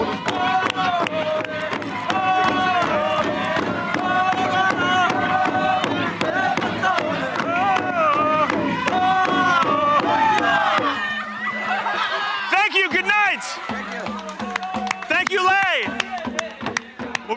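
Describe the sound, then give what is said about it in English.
Villagers sing together at a Sing Sing, a ritual of song and dance in Papua New Guinea: many voices chant over steady rhythmic beats, then the singing gives way to louder voices and laughter near the end. “called a Sing Sing, a ritual in which villages come together through song and dance. Like many other tribes in Papua New Guinea, its people are caught between the past and the present.”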